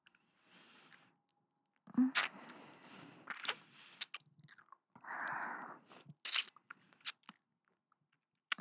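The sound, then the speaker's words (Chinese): Crunchy biting and chewing of food, with a few sharp crunches at irregular intervals and softer mashing between them. The sound is fairly quiet, with no talk. “好久没有吃你的了，好好吃啊。”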